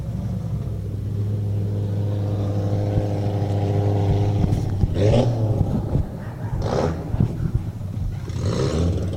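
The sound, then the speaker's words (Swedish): Rally car engine roars on a forest stage, its exhaust manifold leaking badly. A steady harmonic drone holds at first, then gives way to a few rough, loud revving bursts with a raspy, broken edge. “Ja, nu har vi tydligt avgasljud här. Det här är ett ordentligt grenrörsläckage i 93.”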